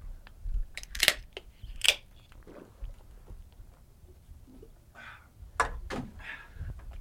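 A cold beer can is cracked open, with a few sharp metallic clicks and pops spread among quieter handling and fumbling noises.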